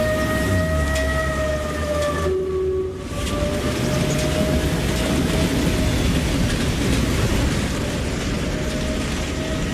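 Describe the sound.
Sound effect of an 18th-century ship at sea, crewed by scurvy-stricken sailors: a steady rushing wash with sustained whistling tones and faint creaking, continuous throughout apart from one brief dip in loudness early on.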